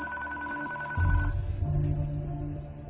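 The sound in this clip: A telephone rings from a caller with no caller ID, a steady electronic ringing tone that stops after about a second, followed by a low, muffled rumble.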